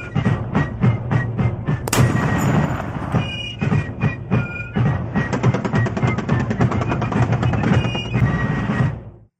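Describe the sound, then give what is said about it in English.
A rapid gunfire sound effect: a dense run of sharp, booming shots fired in quick succession, with one especially loud blast early on, before the volley stops abruptly. “Got to hear those guns every day. Got to hear the guns every day.”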